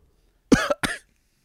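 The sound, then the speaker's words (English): A person coughs and chokes after inhaling something, giving two short, sharp, harsh bursts with a brief gap between them. The bursts are heard alone against silence. “Why are you choking? Huh? Why are you choking? You inhaled that, huh?”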